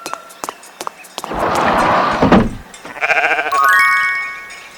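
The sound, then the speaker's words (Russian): A sheep bleats near the end: a wavering, nasal harmonic cry that follows a burst of loud, rushing noise. “Овца.”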